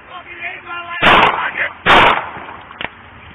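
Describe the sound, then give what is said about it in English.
Two loud, sharp gunshots ring out close together during a tense police confrontation with a suspect, with voices around them and a smaller crack after. “shots fired, suspect down”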